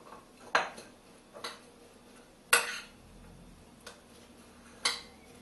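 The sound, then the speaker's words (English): A utensil stirs a peppery potato dish, clanking against the pot in several sharp metallic clinks spaced a second or so apart. Soft scraping fills the gaps between them. “This is quite a peppery dish, so feel free to add quite a bit. Give it a good mix.”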